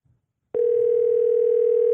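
A telephone dial tone, a steady unbroken hum at a single pitch, starts abruptly after a brief faint sound and holds evenly to the end.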